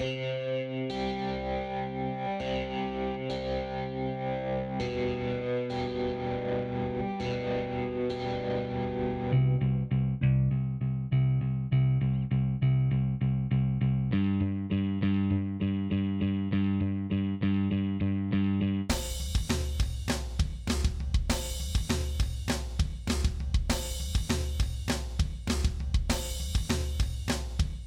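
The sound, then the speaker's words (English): Distorted electric guitar, then bass, then punk rock drums, each played alone in turn in a 1980s punk style. The guitar and bass sections ring steadily, and the drums close with loud, driving, steady hits. “So here's, in that order, a little bit of guitar, bass, and drums.”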